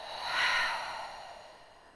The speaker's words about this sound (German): Atme ganz tief durch die Nase ein. und atme durch den Mund aus.